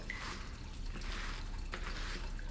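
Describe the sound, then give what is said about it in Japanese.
Shampoo squeezed out of its container into a hand, giving faint, wet, squishy squirts and drips against a soft, steady background hiss. “シャンプーを手に出しまして、”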